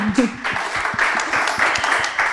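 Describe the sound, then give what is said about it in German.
Audience applause greeting a panelist at a moderated live discussion: a dense, steady clatter of many clapping hands that runs the whole clip at a fairly loud level, with some voice mixed in near the start. “Ein kleiner Applaus erstmal.”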